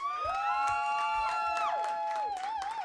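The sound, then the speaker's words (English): Audience applause and cheering break out for a comedy act, a loud sustained crowd wash with whoops and shouted voices rising over continuous clapping throughout. “Give a round of applause for Barbara Holm!”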